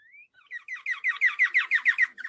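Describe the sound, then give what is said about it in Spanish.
A small bird chirps in spring, a rising call followed by a fast, even series of bright, high chirps that grow louder and then fade slightly at the end, heard alone. “ahí veo sonido de pajaritos”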